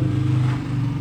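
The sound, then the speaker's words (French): A car driving past, a brief, steady low engine hum with a slight surge midway. “Pas du tout comme cette voiture qui vient de passer.”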